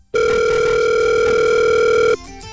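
A telephone dial tone sounds as a phone starts dialling through a remote-access menu. One steady, loud, unbroken tone holds for about two seconds, then cuts off abruptly into a brief quieter sound.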